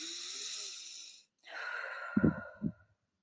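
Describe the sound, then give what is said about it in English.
A slow, deep breath taken during a guided mindfulness exercise: a long, airy inhale, a brief pause, then a breathy exhale ending in a couple of soft, low puffs. “And then a big, nice, deep breath.”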